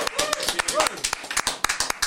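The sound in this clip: Applause in a studio after a band's performance: sharp, uneven claps from a small group, with voices talking over them.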